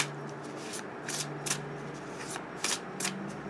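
A deck of affirmation cards is shuffled in a series of soft, papery riffling bursts with brief hiss-like flicks at uneven intervals. The sound is faint throughout.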